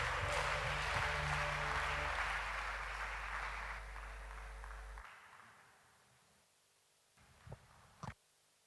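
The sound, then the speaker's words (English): A church audience applauds a female singer after her ministration. Dense, steady clapping gradually fades out, followed by quiet and a couple of faint knocks. “Put your hands together for our sister. Wonderful ministration.”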